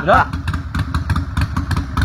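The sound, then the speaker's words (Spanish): A motorcycle engine runs roughly, seemingly firing on only one cylinder, with an uneven, lumpy low chugging pulse throughout. A brief voice is heard at the start. “Parece que anda un cilindro solo de ese motor, ¿no?”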